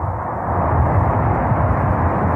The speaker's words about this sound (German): Second umbilical retracting. We have a go for engine start. We have main engine start.